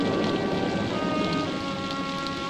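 Heavy rain pours steadily during a thunderstorm among pines and rocky ledges. It makes a dense, loud, continuous hiss with a low rumbling undertone and no voices.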